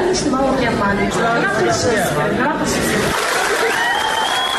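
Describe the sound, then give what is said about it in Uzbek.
Applause from video-meeting participants after a student's speech: steady, loud clapping mixed with overlapping talk and murmuring voices. “Video yig'inining boshqa ko'plab ishtirokchilari talaba qizning so'zlarini qarsak bilan qutlashgani aks etgan.”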